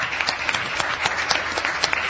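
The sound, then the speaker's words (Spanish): Studio audience applause for a guest at the start of a talk show, a steady burst of many hands clapping, fairly loud and even, with no talk over it. “amigos aquí en la platea los aplausos del caso para Carlos Maggi en primer lugar.”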